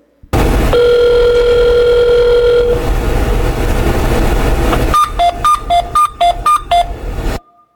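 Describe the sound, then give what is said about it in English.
Telephone dialing into an elevator phone line: a steady dial tone over line noise, then a quick run of touch-tone beeps before the line cuts off. “So who wants to like dial into an elevator and like listen to what goes on?”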